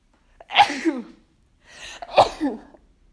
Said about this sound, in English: I need to sneeze.